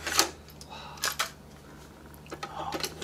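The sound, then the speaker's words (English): Plastic clicks and clatter as an audio cassette tape is lifted and flipped over: a few sharp clicks and knocks, spaced unevenly over a low steady hum. “My hands are so sore from lifting up this tape and flipping it over.”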